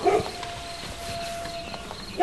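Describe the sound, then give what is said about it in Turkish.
A guard dog barks near a grain barn in short, sharp bursts at the very start and again at the end, with a faint, steady background between them. “Köpek havlıyor yine.”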